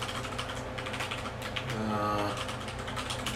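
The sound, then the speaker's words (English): Computer keyboard typing as an email address is entered into a login field: a dense, steady run of many quick plastic key clicks with no clear pauses. “Alright, so we're going to type in my email.”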